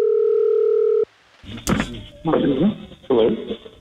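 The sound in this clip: A steady telephone dial tone on an outgoing call holds for about a second and then cuts off abruptly, followed by voices talking.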